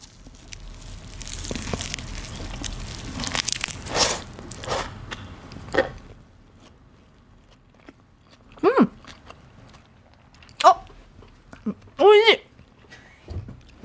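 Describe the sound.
Someone bites into and chews a rice dish with cream cheese and cured ham. Several seconds of crunchy, crackling chewing noise are followed by a few separate, sharp bites with near silence between them.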